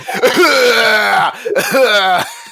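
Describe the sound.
A voice imitates an old person's deep, hacking cough in two drawn-out, rasping, throaty bursts separated by a brief pause.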